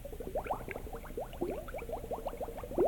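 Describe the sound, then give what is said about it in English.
Bubbling water used as a cue sound on a tour of a spring: many quick, rising bubbly blips pop in a rapid, irregular stream at a moderate, even level. “When you hear this bubbling sound,”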